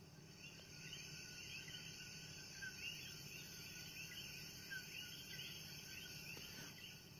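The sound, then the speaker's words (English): Coqui frogs call in Puerto Rico, a faint, steady series of short, high chirps repeating over a constant insect-like hum, with no voices. “you hear that little sound. If you don't know, that is El Coqui. That is the Coqui. That is the frog.”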